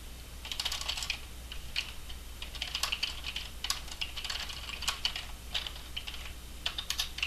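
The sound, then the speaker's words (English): Typing on a keyboard: a steady, fairly quiet clatter of quick keystrokes with uneven rhythm, some keys striking sharper than others, with no talking. “Isn't this interesting, listening to me type?”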